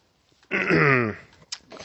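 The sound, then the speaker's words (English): A person clears their throat with one voiced, rasping rumble lasting under a second, followed by a brief click. “Let me clear my throat.”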